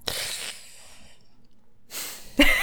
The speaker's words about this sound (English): That was a nice little inhale there.